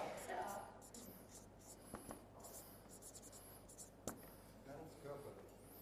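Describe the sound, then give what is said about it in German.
Handwriting with a pen makes faint, soft scratching strokes, broken by a couple of short, sharp taps. Quiet voices murmur underneath. “Also schreiben wir mal körperlich.”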